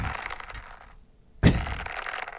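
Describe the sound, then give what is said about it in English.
A whip cracks once, a single sharp, loud snap that breaks a brief quiet stretch and stands clearly above the faint, steady background noise around it. “you're really whipping”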